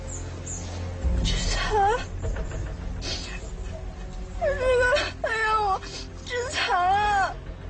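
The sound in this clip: A person cries in distress, sobbing in a few long, wavering wails whose pitch sways up and down, with quieter breathy sounds between the bursts.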